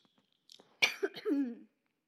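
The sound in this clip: Someone coughs with something stuck in the throat: a sharp burst of coughing trailing into a rough, gravelly rasp, brief and alone in quiet.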